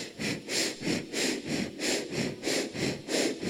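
A meditation teacher breathes audibly in a fast, steady rhythm of many short, airy, sniff-like breaths. The sound is fairly quiet, with no talk.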